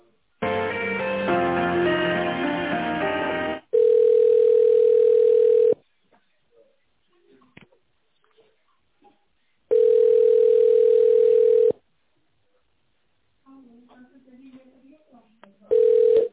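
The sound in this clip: Telephone tones play while a business call is transferred. A short burst of hold music comes first, then steady mid-pitched tones about two seconds long repeat with long silent gaps. A faint voice is heard briefly between tones.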